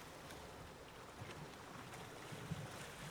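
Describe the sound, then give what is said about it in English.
Ocean waves and an incoming tide make a soft, steady wash of surf with a breath of wind. The sound is faint and continuous, with no distinct breaking crashes. “Be still and listen to the ocean, the tide coming in”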